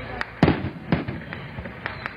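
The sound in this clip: Fireworks at the opening ceremony of a large container port at the Caribbean entrance of the Panama Canal, heard as a few loud, sharp bangs followed by lighter crackling pops.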